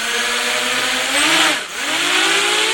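Electric motors of a student-built drone in a university lab class hum with a steady buzzing whine as it throttles up; the tone dips briefly in pitch, then climbs back and holds.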